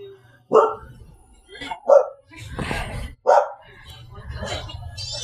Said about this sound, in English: Sorry for the listener. My dog is... The dogs are paranoid.